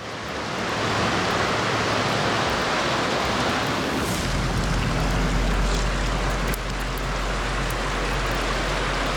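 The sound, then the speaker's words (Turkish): Water running and dripping over a rock beside a freshwater stream. It makes a steady, loud, hissing rush with no distinct separate drops. A low rumble joins partway through. “Şu kayanın üzerinden su damlıyor.”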